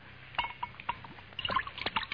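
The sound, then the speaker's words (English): Sherry poured into a glass gives soft, irregular trickling and splashing with a few small drips. The sound is faint and heard without voices. “Yes, you can pour me a glass of sherry.”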